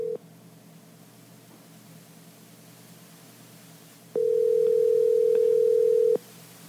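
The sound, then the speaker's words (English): Ringback tone of an outgoing telephone call: a steady single-pitch electronic tone, first a brief burst cut off at the start, then one loud, unbroken two-second ring over faint hiss. “exciting phone ringing.”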